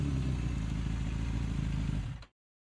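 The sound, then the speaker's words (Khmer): A motorcycle carrying a box of rice noodles drops into a pothole. Its loud, steady low engine rumble runs with rattling clatter, then cuts off abruptly. “ជិះម៉ូតូធ្លាក់កន្លុកកបណ្ដាលឲ្យដាច់ថង់ធ្លាក់នំបញ្ចុកអស់មួយប្រអប់មកលើដី”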